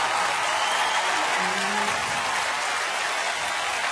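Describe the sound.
Audience applause after a stage performance: dense, steady clapping fills the whole stretch at an even level, with a faint voice underneath.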